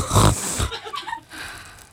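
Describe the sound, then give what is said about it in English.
A loud, sharp nasal snort of someone sniffing up fairy dust from a tiny path: a short forceful burst that trails off into a fainter, breathy tail. “You bend down gently over the tiny path and snort up the dust.”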